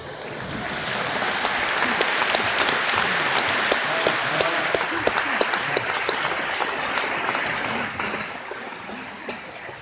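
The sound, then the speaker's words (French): An audience applauds a performer arriving on stage at a live show in Rodez, dense and continuous clapping that swells quickly and holds at a loud, steady level for nearly ten seconds. “ils sont encore capables d'applaudir comme des macaques”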